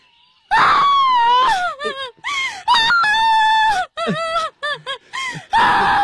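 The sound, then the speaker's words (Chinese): Loud crying: drawn-out, wavering wails that bend down in pitch, broken by short sobbing gasps and catches of breath, rising again into a long wail at the end. “别哭，你别哭啊。”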